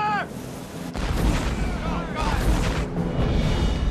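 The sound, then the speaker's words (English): Anti-aircraft fire shoots at a ship, a dense, continuous barrage of rumbling booms and blasts. The loud, sustained roar holds steady throughout. “What was that? It's AA. Yeah. Shooting at us.”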